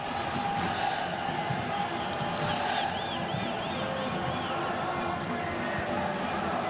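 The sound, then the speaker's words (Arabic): A football stadium crowd cheers in the stands in a steady, dense roar. It continues unbroken from start to finish, with a few faint high chirps rising above it midway. “ما يعرف الخوف من هذا جمهور، ما شاء الله على هذا التفاعل وعلى هذا الدعم الكبير جدا في المدرجات.”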